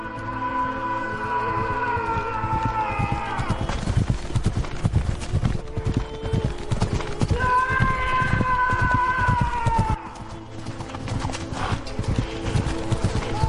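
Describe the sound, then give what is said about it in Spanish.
Horse hooves gallop in a rapid, steady rhythm as a rider charges mercenaries in a sword-fight scene. Sustained tonal sounds run over the hoofbeats, and the hoofbeats briefly turn quieter near the end. “César desenvaina. Galopa contra los mercenarios.”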